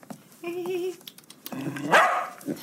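A dog whines in a drawn-out, wavering tone, then gives a rough, moderately loud bark that rises into a sharp yip, with no talk over it.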